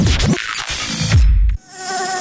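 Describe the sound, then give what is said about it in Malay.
An Aedes mosquito buzzing: a thin, high whine with slightly wavering pitch, heard alone after a burst of louder, rumbling noise. “Tahukah anda mudah mencegah pembiakan nyamuk Aedes?”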